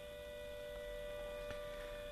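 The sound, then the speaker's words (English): A steady siren tone holds at an even pitch in the background, faint and continuous for the whole stretch, over a low hum, with one brief click partway through. “And let's see if we can play the next song without the siren.”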